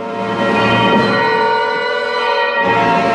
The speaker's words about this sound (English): Don Colido holds onto the bells to stop them ringing